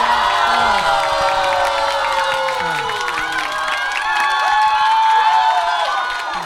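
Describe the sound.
Live audience cheering at a show in Shijiazhuang: a loud, continuous crowd roar with shrill whoops and shouts layered on top, holding steady for the whole stretch.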